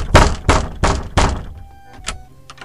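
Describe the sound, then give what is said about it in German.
Four heavy, booming thumps pound on a door in an even, forceful rhythm as police demand entry, followed by a pause and two fainter knocks. “Machen Sie auf oder wir schlagen die Tür ein!”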